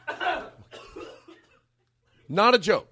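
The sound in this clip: Rough, hoarse coughing from a man who has been smoking pot: two ragged bursts, then after a short pause a louder, voiced burst.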